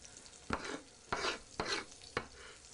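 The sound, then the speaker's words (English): Leftover steak frying with onions in olive oil in a pan: four sharp, scraping stirs of a utensil at a fairly even pace over a faint, quiet sizzle. “Okay, put all your steak on it. Get that juice on there too.”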